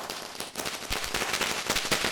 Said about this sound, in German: Mit Böllerschüssen. Wie originell.